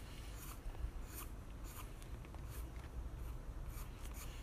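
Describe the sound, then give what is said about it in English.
A Botella Arte graphite pencil sketches an anatomy drawing on paper, giving faint, continuous scratchy strokes with soft, repeated bursts of scraping and no talking. “The color graphite, sorry if I say it wrongly, is ideally for sketching. And yeah, I'm just gonna draw an anatomy right now.”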